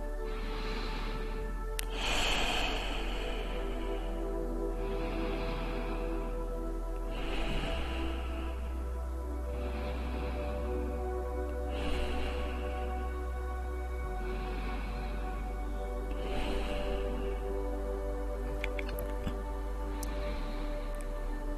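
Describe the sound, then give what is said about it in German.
Slow, deep breaths drawn in through the nose and let out through the mouth during a guided relaxation exercise. Several soft, airy breath sounds repeat at an even, unhurried pace over a steady tonal background with no talking. “Atmen wir hier noch ein paar tiefe Atemzüge. Gern einfach durch die Nase ein und durch den Mund wieder aus.”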